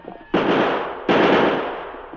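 Gunshots fired at pursuers ring out as two loud, sharp blasts. Each blast trails into a long, noisy, crackling decay, with the second following the first by under a second.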